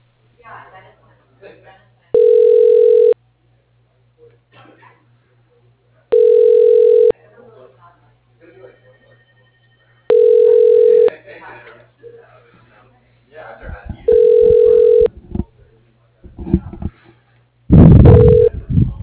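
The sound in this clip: Ringback tone of a phone call being transferred to an office voicemail: five steady, evenly spaced one-second beeps over a low constant hum, with faint voices murmuring between them.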